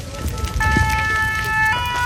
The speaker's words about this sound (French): Là il faut vraiment qu'on se dépêche parce que le feu. Il a vraiment repris de la vigueur. Il y a encore quelques minutes, il était plutôt calme. Mais là, la forêt de pins est littéralement en train de s'embraser.